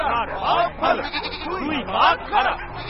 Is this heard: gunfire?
no